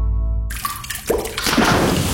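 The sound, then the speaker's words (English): Water dripping and splashing from a plumbing leak: a few soft wet drops and a spreading watery hiss that grows fuller after a short opening tone, moderately loud with no voices. “When the water starts flowing where it shouldn't, you need help now.”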